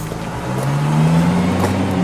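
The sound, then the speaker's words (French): A car engine on a city boulevard in the evening runs as a steady, low droning hum that rises slightly in pitch and grows a little louder as the car pulls away. “boulevard Jean Lacoste, il est 19h36 et une voiture démarre.”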